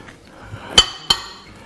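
Two sharp metallic clinks as a non-stick casserole holding a baked apple is opened, the second coming a moment after the first over a quiet background.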